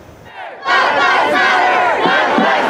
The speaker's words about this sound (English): The chorus of voices demanding social justice and change as the Black Lives Matter movement gained momentum rang loud and clear in 2020.